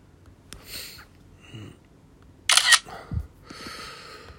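A camera is picked up and handled: soft clicks and rustles, then a loud burst of handling noise and a low thump, with some breathing sounds in between.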